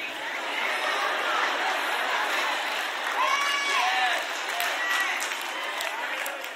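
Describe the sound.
An audience shouts out many names at once, a dense, steady roar of overlapping voices with a few higher calls standing out, evenly loud throughout.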